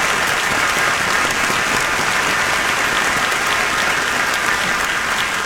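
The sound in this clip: An audience gives a clap offering in worship with sustained, loud, steady applause: many hands clapping evenly for the whole stretch, without any talking.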